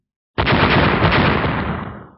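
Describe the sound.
Fireballs exploding against zombies: one loud, broad blast that roars steadily for about two seconds, then fades out, with no voices.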